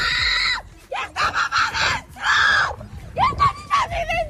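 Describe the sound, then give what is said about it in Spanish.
A woman screams desperately as flames close in on her house during a fire in Villa del Prado: loud, high, strained wails in several long bursts with short breaks between them. “vídeos como este, por ejemplo, de una mujer que chilla desesperada viendo cómo las llamas van a alcanzar su casa en Villa del Prado”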